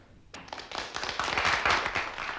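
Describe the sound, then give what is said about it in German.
Hand clapping applause from a group of people breaks in abruptly after a short quiet moment, a dense stream of overlapping claps that grows slightly louder and stays steady to the end. “Dann für euch, damit ihr uns jetzt bewertet, kriegt ihr diesen Applaus.”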